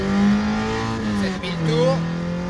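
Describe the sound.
A car engine revs hard through second gear up to about 7000 rpm, dips briefly at the shift, then climbs again in a slower, longer pull through third.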